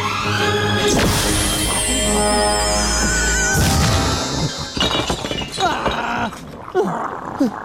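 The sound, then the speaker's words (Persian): Crash of many glass bottles falling to the ground: a loud burst of shattering glass, then scattered smaller knocks and clinks trailing off. “ناگهان تعداد زیاد بوتل ها به زمین افتاد.”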